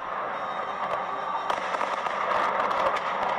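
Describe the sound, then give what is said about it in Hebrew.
Traditional fireworks display around the Eiffel Tower in Paris, heard as a dense, continuous crackle with many scattered pops and bangs over a steady, broad rumble. “אחרי ארוחה צפה מודי בחברת מקרון במופע הזיקוקים המסורתי סביב מגדל”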